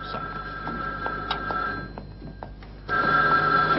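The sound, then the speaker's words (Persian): A telephone ringing with a steady electronic ring tone over background noise. The ring grows noticeably louder and fuller near the end. “8 زنگ زد تا جواب بده”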